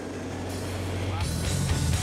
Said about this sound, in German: Die Asphaltfertiger fahren unter 7 Stundenkilometer. Es ist genau berechnet, wann der Nachschubasphalt kommen muss, damit die Fertiger nie stillstehen.